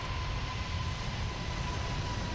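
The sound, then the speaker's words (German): Broad, steady jet engine roar of the world's largest passenger airliner taking off on its first test flight, a continuous loud low rumble with a faint steady tone above it, no voices. “Am 27. April 2005 ist es aber soweit und die Maschine hebt vor tausenden Zuschauern zu ihrem fast vierstündigen Testflug ab.”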